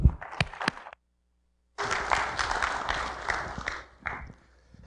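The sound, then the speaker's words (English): A church audience applauds to welcome a guest, a sustained stretch of dense clapping that thins out toward the end, coming after a short burst of sound and a brief silence. “So let's give a warm Rittman Grace Brethren Church welcome to Gary McCammon.”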